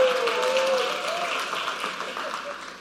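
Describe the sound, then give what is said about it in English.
Applause from a church audience honouring the speaker's wife, a dense burst of clapping that starts strong and slowly tapers, with a voice cheering at the outset. “Praise God for my wife. Let's give her a hand.”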